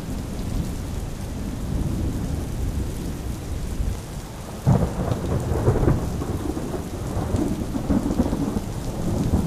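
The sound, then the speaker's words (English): Raging thunderstorm outside, heavy rain hissing steadily while a sudden roll of thunder breaks in midway and keeps rumbling under the downpour, with no voices. “they were content to just listen to the raging weather going on outside”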